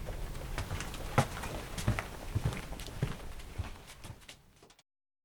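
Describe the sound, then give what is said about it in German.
Footsteps walking across an office floor on the second storey of a company, a steady series of moderate, slightly uneven steps over a light background hiss that fade away near the end and drop into silence. “Jetzt gehen wir aber mal weiter.”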